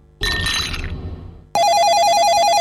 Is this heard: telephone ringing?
yes